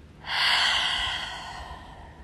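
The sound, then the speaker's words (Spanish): A single long, loud breathy exhale through the mouth during a guided breathing exercise. It starts strong and airy, then slowly tapers off over about two seconds, with no voice over it. “Inhala. Exhala. La exhalación por boca es sonora.”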